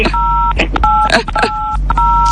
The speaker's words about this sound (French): vous poussez sur les touches du téléphone